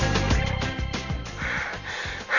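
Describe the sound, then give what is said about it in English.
Heavy, rapid panting from someone out of breath after training for a 1500-metre long-distance run. Loud, ragged breaths and gasps follow one another closely. “you are totally out of breath. Are you running away from the police?”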